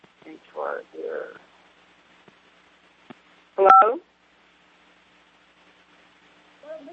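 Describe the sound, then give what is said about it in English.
Electronic keypad tones from a telephone being dialed: one short, bright cluster of beeps after brief muffled voices, then near silence. “She's dialing...”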